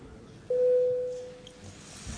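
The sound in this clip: A parliament's voting bell signal sounds as one steady, moderately loud tone lasting about a second over faint room noise, then fades away.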